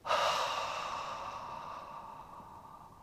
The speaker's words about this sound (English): Double inhalation deeply. Hold the breath, hold the tension. Expel the breath.